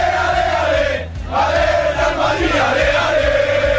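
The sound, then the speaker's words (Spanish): Real Madrid football supporters in Valencia chant before a cup final: a dense crowd roars a rhythmic chant in unison, loud and continuous, with a brief dip near the start. “Y este es el sonido de la afición del Real Madrid en Valencia.”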